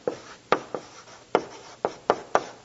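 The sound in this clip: Handwriting with a pen: seven quick scratchy strokes in an uneven rhythm, each a short sharp scrape that fades fast, with nothing else heard.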